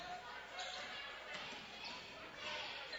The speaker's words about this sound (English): Putting on a dribbling clinic.